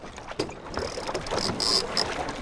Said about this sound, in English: It's a sunny afternoon, and I'm sitting on a boat watching three long white sailboats cut through the wind on the Allegheny River.